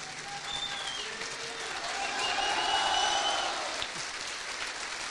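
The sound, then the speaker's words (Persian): An audience stands and applauds in a steady wash of many hands clapping. The applause swells a little toward the middle and then eases slightly, with some voices mixed in. “به افتخار مسیح جان دست بزنید، به پا خیزید و دست بزنید.”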